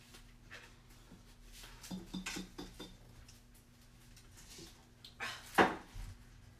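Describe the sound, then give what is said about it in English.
A bowl being moved onto a table in a kitchen while the oven preheats: faint ceramic knocks and soft clatters in a few small clusters, ending in one louder knock, over a low, steady hum. “I'm gonna move this bowl over to the table because I don't want it to get hot.”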